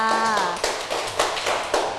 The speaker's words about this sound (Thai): ถูกต้องปรบมือให้กับเพื่อนค่ะ